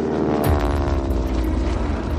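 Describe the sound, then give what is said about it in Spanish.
A propeller airliner of the Spantax airline taking off from Los Rodeos airport in Tenerife, bound for La Palma with 24 passengers: a loud, steady engine drone with a dense harmonic hum that holds throughout. “Un avión de la compañía Spantax despega del aeropuerto de Los Rodeos en Tenerife para llevar hasta La Palma a 24 pasajeros.”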